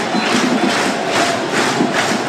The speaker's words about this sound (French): Les applaudissements du public hein, sur cette nouvelle tentative.